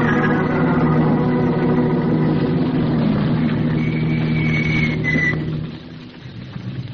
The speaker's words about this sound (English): keep the motor running